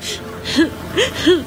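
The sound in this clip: A young child crying in short whimpering sobs, three brief arched cries that rise and then fall in pitch, spaced evenly over a faint background.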